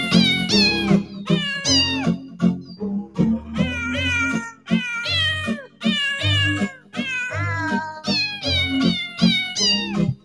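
Many rhythmic cat meows follow one another quickly, pitched to the melody of a Christmas song over a low, steady accompaniment. The meows are loud and bright, some drawn out and some clipped.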